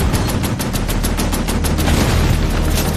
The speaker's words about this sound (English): Mindel and his men managed to outflank the 1st Canadian tanks. But as they make their way past, they discover a 4th, which opens fire.